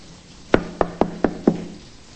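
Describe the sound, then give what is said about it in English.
Five sharp knocks on a closed bedroom door, evenly spaced and crisp, with nothing else heard around them. “She rests her head and shoulder against it and knocks.”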